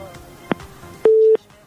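A telephone busy tone after a radio call-in line drops: a brief click, then a single steady mid-pitched beep lasting about a third of a second over a faint background.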